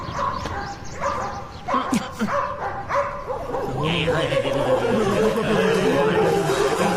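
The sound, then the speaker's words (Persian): Dogs bark in a few sharp woofs and yips over the first three seconds. A denser, steady mix of whining and yelping follows and continues to the end. “نه جانم پارس کردن اونا که ترسناک نیست.”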